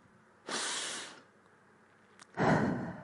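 A deep breath, heard as two soft, breathy rushes of air separated by a pause, the second slightly louder, with no talking.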